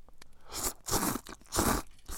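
A person eats a spicy dish with small pieces of meat, corn kernels and green onion, making a few loud bursts of crunching and chewing separated by short pauses, with no talk.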